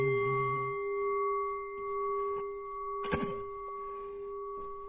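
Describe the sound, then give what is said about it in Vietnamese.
A Buddhist temple bell rings during a chant, its steady, humming tones sustaining through the whole clip. A low voice chants briefly at the start, and the sound stays soft throughout. “Nguyện tiếng chuông này vang pháp giới.”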